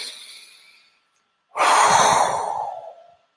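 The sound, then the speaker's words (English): A deep breath pushed out through pursed lips: a softer breath, then a strong, airy rushing hiss that starts abruptly and tapers off over about a second and a half. “doing some deep breaths in through the nose, out through the mouth, pursing your mouth as you breathe out, so that you create a bit of resistance and you push out.”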